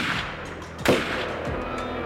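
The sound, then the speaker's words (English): A gunshot sound effect from an audio drama: a single loud, sharp crack cuts through a steady, noisy background and quickly fades back into it. “I took out my weapon. One bullet hit the pink haired archer, turned right.”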